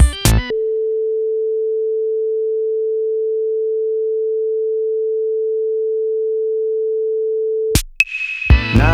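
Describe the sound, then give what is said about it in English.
A steady, mid-pitched pure test tone plays from the right speaker for a crosstalk check, holding unchanged for about seven seconds, with brief clicks just before and after. “Play the test tone again, but from the right speaker.”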